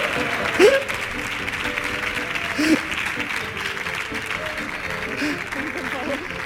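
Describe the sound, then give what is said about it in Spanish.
Audience applause at a public ceremony, a steady wash of clapping over about six seconds, with a couple of brief louder voice-like shouts rising above it from the crowd. “Fuerte el aplauso para Marc Lenders.”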